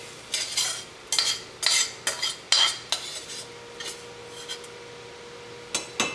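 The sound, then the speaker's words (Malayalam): Coconut roasting in a pan is stirred, with a utensil scraping across the pan in many short, uneven strokes. Each stroke is bright and gritty, with faint sizzling between them and no voices. “തേങ്ങ വറുത്തെടുത്ത് കഴിഞ്ഞാൽ അപ്പം തന്നെ ചട്ടിയിൽ നിന്ന് മാറ്റണം അല്ലെങ്കിൽ ചട്ടിയുടെ ചൂടുകൊണ്ട് തേങ്ങ കരിയും”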